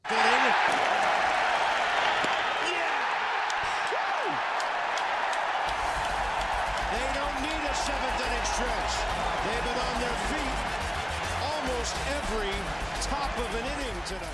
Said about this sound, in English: This is his debut in 2010. He struck out 14 batters in this debut. And this is the sound of that final strikeout.